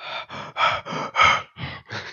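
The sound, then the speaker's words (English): A player in a role-playing game imitates heavy breathing with seven loud, rhythmic breaths. Each one is a husky, forceful gasp, and the breaths follow each other with no other sound. “you begin to just breathe heavily”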